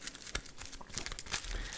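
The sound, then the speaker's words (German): Cards are shuffled during a deck-building card game, giving a soft papery rustle with quick scattered clicks and crinkles that runs continuously and stays faint, with no talk. “Und mischen unser Deck.”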